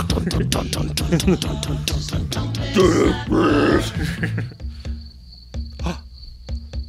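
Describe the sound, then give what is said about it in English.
Crickets chirp outside with a steady, high trilling pulse. It follows a louder, busier opening stretch with grunting sounds, then continues fairly faintly on its own to the end. “Did you hear the crickets?”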